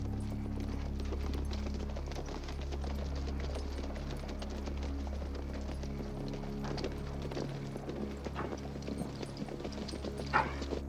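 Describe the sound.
Horses' hooves clip-clop faintly and steadily as a lawman and his remaining deputies ride into a town, the patter of many hoofbeats running on under a low, constant rumble.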